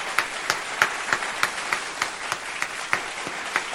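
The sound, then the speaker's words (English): A slow, steady run of single claps at evenly spaced intervals, sharp and fairly loud, following a sarcastic call to applaud. The sparse clapping sounds like only one or a few people are clapping. “But folks, can we applaud those folks?”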